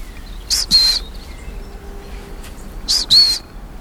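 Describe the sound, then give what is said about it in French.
Long-tailed tits give high, thin trilling calls in two short paired bursts separated by a pause, over a soft background hiss. “Là, il y a des mésanges à longue queue. La petite trille qu'on entend à peine là.”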